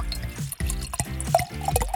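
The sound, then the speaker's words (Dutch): Auxerrois white wine poured from a bottle into a glass, a steady liquid gurgle broken into several short glugging bursts with a fairly even rhythm, moderately loud and heard alone without talk. “Goed, nou, ik zal een glaasje inschenken.”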